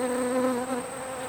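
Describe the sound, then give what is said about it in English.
Bees of several species buzz in a steady, droning hum that holds an even pitch and stays fairly loud for the whole short stretch, with no voices. “Okay, so as you can tell, we still have a lot of species of bees around here.”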